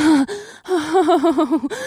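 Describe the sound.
A woman gasps during an intimate moment, then lets out a breathy, voiced moan whose pitch wavers in several quick pulses, loud and close.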